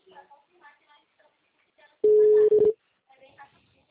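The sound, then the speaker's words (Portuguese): A telephone tone sounds while an outgoing call is placed: one steady mid-pitched tone lasting under a second, with a tiny break, between stretches of quiet talk. “Tô ligando para ele.”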